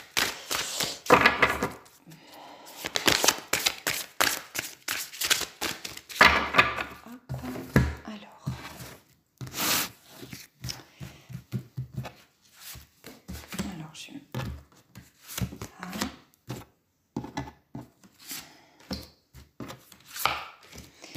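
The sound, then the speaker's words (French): Tarot cards are covered and handled during an astrological reading: many sharp taps, slaps and clicks come in irregular clusters over about twenty seconds, with a voice talking between and under them. “je suis en train de... Je recouvre les cartes.”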